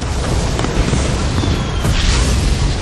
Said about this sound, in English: As a titanic blast ripped apart the face of the cliff, spewing out rocks and debris for hundreds of yards.